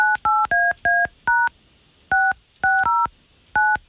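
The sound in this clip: Touch-tone beeps dial a telephone number: ten short, clear tones. They come in a quick, uneven sequence with a noticeable pause after the sixth.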